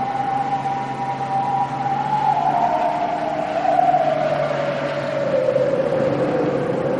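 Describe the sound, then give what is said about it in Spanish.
Steady engine drone of a snowcat tracked vehicle driving slowly along a snowy forest track, with a whining tone that slowly falls in pitch over the continuous rumble. “Un coche oruga avanza lentamente por una pista nevada del bosque.”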